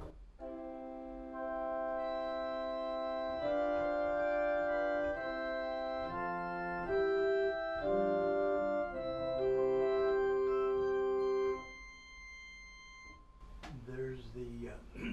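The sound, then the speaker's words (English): Principal chorus stops on the positive division of a pipe organ play sustained chords that shift from one to the next at steady volume, then cut off. A voice briefly speaks afterwards. “On the positive, the principal chorus sounds like this.”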